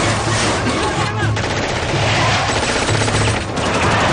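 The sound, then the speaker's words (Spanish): Submachine gun fired from a car's rear window at pursuing jeeps in a 2008 action-thriller chase: loud, continuous rattling gunfire that fills the whole stretch without a pause. “carga su metralleta. Dispara a los vehículos desde la ventana trasera del coche.”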